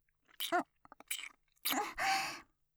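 Wet kissing sounds: a few bursts of lip smacks and moist mouth noises, some carrying a soft voiced hum, with short quiet gaps between them.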